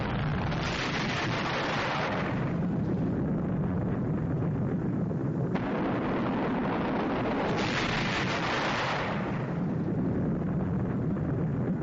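Intercepted enemy missiles explode in a dense, continuous roar, loud and unbroken, with swelling surges of hiss and no voices.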